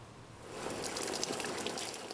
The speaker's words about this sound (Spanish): Estoy echando agua en la piscina y esto hace que las hojas, las ramas y los palos se muevan.